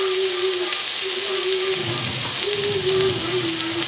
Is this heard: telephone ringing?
no